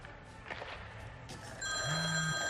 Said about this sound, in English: Doug answers his phone.